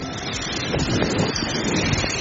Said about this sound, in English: This measuring bowl is 1 liter, so that's why I'm pouring 2 of it.